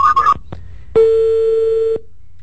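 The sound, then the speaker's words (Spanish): Telephone tone signalling an incoming call on a sports call-in radio line: a few short electronic chirps and a click, then one steady mid-pitched tone lasting about a second, alone with no talk. “Ahí, bueno, entre otra llamada.”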